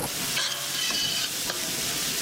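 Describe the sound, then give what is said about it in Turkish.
Onion and garlic sauté in butter in a pot with a steady, bright sizzle, broken by a few scraping stirring strokes. “Doğradıktan sonra soğanı, sarımsağı tenceremize alıyoruz. Tereyağı ile beraber kavuruyoruz.”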